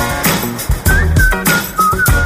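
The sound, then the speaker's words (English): Someone whistles a few short, bright, melodic notes over loud music with a deep bass line and thumping beats. “My apologies, whistle away.”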